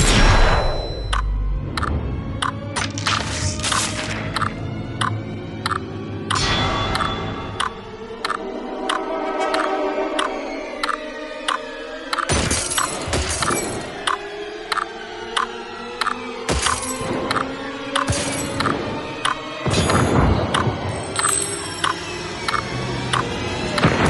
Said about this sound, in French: une balle qui passe à travers d'une vitre, qui passe entre des civils et qui va se loger dans un pirate somalien